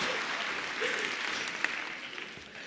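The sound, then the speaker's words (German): An audience at a talk applauds after a group breathing exercise, steady dense clapping that thins slightly toward the end, with a single sharper clap standing out midway. “Applaus”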